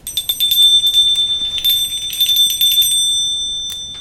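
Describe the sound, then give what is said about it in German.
A bell rung to summon a servant gives a bright, high, rapidly rattling ring that holds steady, then fades away toward the end, with no voices. “Sie haben geläutet”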